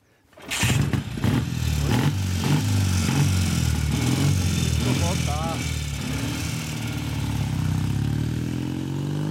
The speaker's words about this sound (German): Es hat einen Kickstarter natürlich und keinen Elektroanlasser. Und da muss man einem ganzen bestimmten Ritual folgen. Jetzt mache ich sozusagen die Batterie dazu, gebe auf Vollgas.